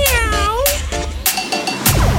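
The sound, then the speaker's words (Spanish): A child imitates a kitten's meow, voicing a few high, wavering meows in quick succession, loud and clear with no other sound around them. “Con las manos para arriba, con la colita para atrás. Haceme gatito.”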